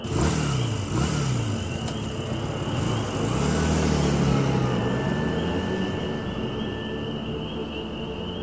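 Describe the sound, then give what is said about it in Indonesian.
Motorcycle engine revving as the rider speeds off on the Cijapati road after midnight, a few rising engine surges that settle into a steadier drone. “Aku pun berpamitan pada sopir travel itu dan langsung menancap gas motorku.”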